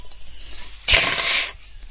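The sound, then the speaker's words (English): Dice rattle in a dice video game as a single short, bright clattering burst of about half a second. Quieter background sound comes before and after it. “Hold dice 1, hold dice 2, hold dice 5, third roll.”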